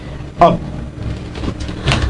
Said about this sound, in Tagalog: nagkanto siya sa antik na kabinet. Oh, bigin buksan siya ng drawer.